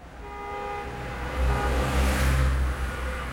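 A road traffic sound effect: a steady, dense rumble of vehicles that swells slightly toward the middle before easing, with no voices.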